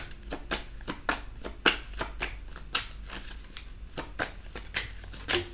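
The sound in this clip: Tarot cards being shuffled and drawn, a quick run of many crisp, papery snaps and riffles in an uneven rhythm, fairly quiet, with no talking.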